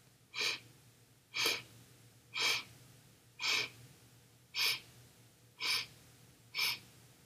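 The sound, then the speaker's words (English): Seven short, sharp nasal inhalations during a seated guided breathing exercise, evenly spaced about a second apart, each a quick airy sniff over a faint low hum. “And we're going to inhale through the nose in 7 portions. So kind of like this.”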